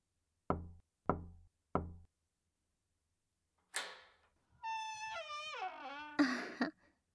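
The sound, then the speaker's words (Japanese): Three slow, evenly spaced knocks on a door, sharp and solid. After a long silence comes a brief rustle, then a drawn-out creaking squeak that falls in pitch and ends in a short scrape. “扉をゆっくり3回ノックして。そしたら開けるから。”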